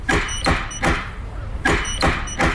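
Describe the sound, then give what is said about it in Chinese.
Knuckles rap on a house door in two groups of three firm, sharp knocks, separated by a short pause, each blow crisp and loud against a quiet background. “当时的敲门声大概就是这样的。”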